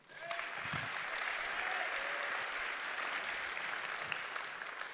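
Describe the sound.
A church audience applauds a speaker being welcomed, with dense, steady clapping that holds at an even level for about five seconds.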